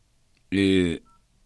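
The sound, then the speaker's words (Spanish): A single telephone keypad tone sounds as a number is dialed, a steady, clear electronic beep lasting about half a second before cutting off into near silence. “A ver, voy a marcar.”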